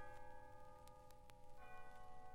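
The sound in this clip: A church bell rings to celebrate a wedding, heard as faint, steady sustained tones with a few sharp strikes.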